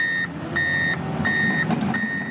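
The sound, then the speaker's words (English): Four steady high-pitched reversing beeps from a construction vehicle at roadwork on Corkscrew Road in Estero, sounding over a low truck engine rumble. “Major construction there is causing traffic headaches and creating frustrated drivers, as WGCU's Jeanju Park reports. If you drive east in Estero, you can't miss the roadwork happening on Corkscrew Road.”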